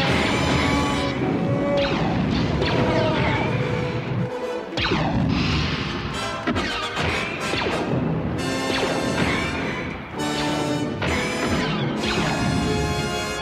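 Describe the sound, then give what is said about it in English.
Crashing impacts ring out as a camera eye is shot out during a Star Wars audio drama scene. Loud, repeated smashing hits are layered with dense music and effects throughout. “Shoot out that camera eye! Come on! Get it, Chewie! Hurry up!”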